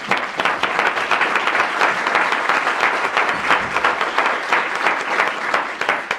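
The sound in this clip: Applause from an audience in a legislative session, welcoming guests who have just been introduced: steady, dense clapping from many hands that holds at an even level for about six seconds.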